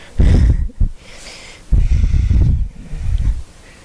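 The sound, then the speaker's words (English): Deep ujjayi yoga breathing through the nose, with the throat muscles narrowed, giving a few loud, rough, hissing breaths separated by short pauses. “take deep ujjayi breath. It's in and out through your nose. You use the muscles of your throat.”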